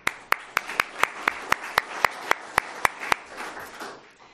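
Applause welcoming panelists at a discussion on the transportation workforce: many sharp, evenly spaced claps ring out over a softer wash of clapping, then stop abruptly, leaving a brief fading tail.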